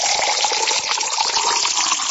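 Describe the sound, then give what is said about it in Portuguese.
Spring water from a spout pours into a glass as a loud, continuous gushing splash. The stream stays even from start to finish, with no voices over it. “aqui é água mesmo, é água boa. Vem lá da bica. Vamos tomar aí, ó. Coisa boa essa água, hein? Mais um copo pra animar, pra alegrar.”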